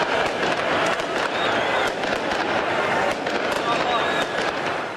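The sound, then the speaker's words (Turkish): Fireworks and a crowd at a night-time football championship celebration with flares. A dense, continuous roar of crowd voices is packed with sharp crackling pops and stays loud throughout. “meşaleler ve havai fişeklerle geceyi aydınlattı”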